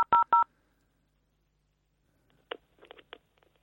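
Telephone dialing tones: three short keypad beeps in quick succession, followed by silence and then a few faint clicks and rustles.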